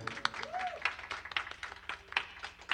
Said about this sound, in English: Let's give it up for Tekin and Nico.